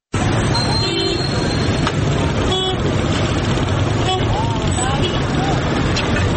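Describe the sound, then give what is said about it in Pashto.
Congested city street traffic in Kandahar, with car horns honking several times over a constant wash of engine rumble and road noise. “د کندهار یو شمېر خاریان وایي چې په د ښار عوامه واټونو کې د کراچۍ چلونکو د بې نظمې زیاتوالی او د موټرو غیر منظم پارکینګ د ټرافیکي ګڼې ګوڼې د زیاتېدو اصلي لاملونه دي.”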